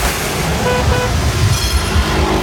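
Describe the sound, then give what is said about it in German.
Car horns honking in a traffic jam on a Munich ring road, short toots over a steady, dense roar of road traffic. “Stau am Mittleren Ring.”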